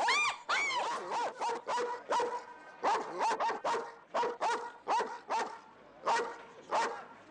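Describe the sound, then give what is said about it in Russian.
A large shepherd dog barks again and again, a long run of many sharp, mid-pitched barks in an uneven rhythm, some carrying a whining, yelping edge, with no talk over them. “В приоткрытом окне появляется голова крупной овчарки.”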